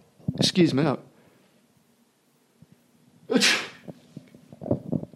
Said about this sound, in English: excuse me. I sneeze.